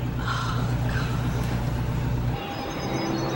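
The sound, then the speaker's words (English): A car driving home, heard as a loud, steady engine and road hum. It drops abruptly to a quieter hiss after about two and a half seconds. “Sometime later, Agnes drives home.”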